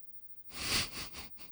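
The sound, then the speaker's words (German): An inhalation drawn with the corners of the mouth pulled down: after a brief quiet, a breathy intake swells, then breaks into a few shorter, softer pulses. “Und dann mal mit nach unten gezogenen Mundwinkeln versuchen einzuatmen.”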